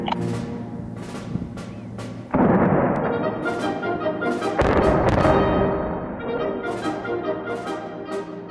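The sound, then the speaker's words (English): Explosive demolition of a decommissioned coal-fired power plant at Port Augusta, South Australia: several sharp cracks, then two heavy blasts. Each blast is followed by a long, rumbling roar that slowly fades. “When the coal-fired Northern Power Plant at Port Augusta in South Australia was decommissioned back in 2017, they didn't just switch it off, they blew it up.”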